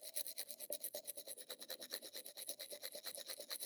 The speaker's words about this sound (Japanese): こうやって、あなたの歯を私が磨くようになったのって、いつからでしたっけ？